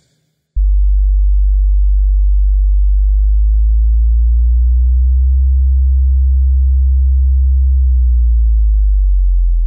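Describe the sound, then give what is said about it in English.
A deep low-frequency sine test tone starts abruptly after a brief silence, then holds steady and loud to the end with only slight, slow pulsing. “Checking low frequency, deep and powerful.”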